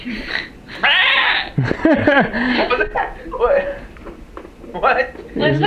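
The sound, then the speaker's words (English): A voice bleats like a sheep during a tabletop fantasy game, giving several wavering, quivering cries amid people talking. “What is that sheep doing here?”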